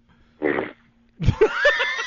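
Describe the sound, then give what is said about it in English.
A fart: a short buzzy blast, then after a brief pause a longer, louder, raspy stretch with a wavering tone. “You just farted? Did you just fart?”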